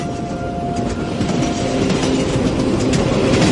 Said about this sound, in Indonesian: Ketika aku bangun, Kulihat kereta ini menurunkan kecepatannya.